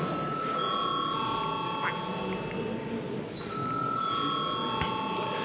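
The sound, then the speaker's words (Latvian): An electric chamber bell rings before a parliamentary vote. Its steady, sustained ringing tones hold through the whole clip over a constant low murmur. “Lūdzu zvanu.”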